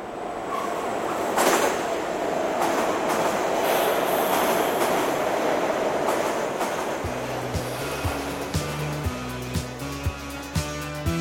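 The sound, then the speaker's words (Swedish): A metro train pulls away from a station platform after its doors close. A broad, steady rumble builds first, then gives way to a rhythmic clickety-clack of wheels passing over rail joints. “men när dörrarna stängs och tåget går är det tomt.”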